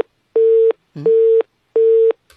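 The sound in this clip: Telephone busy tone after a call was accidentally hung up: three even beeps at a steady mid pitch, each lasting about a third of a second and separated by short silent gaps, with no talk.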